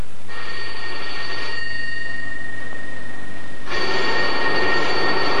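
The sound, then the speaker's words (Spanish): A telephone rings late at night with two long bursts of bright, bell-like ringing separated by a pause of about two seconds, over a low steady hum. “¿Quién estará llamando a estas horas? Cógelo tú, anda, cógelo.”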